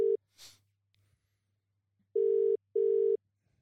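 Telephone ringback tone on an outgoing call: a short low beep, a pause, then two long steady buzzing tones in quick succession, alone with no talk.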